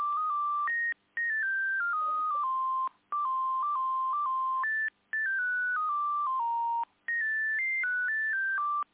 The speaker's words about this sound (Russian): Минуточку, сейчас, минуточку. Я переключу Ларису Юрьевну, сейчас, минутку.